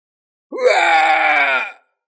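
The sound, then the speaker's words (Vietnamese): A pained scream: a single harsh, harmonic cry that swoops upward at its onset, then holds steady and loud for more than a second before cutting off abruptly, heard alone. “Một tiếng hét thảm phát ra”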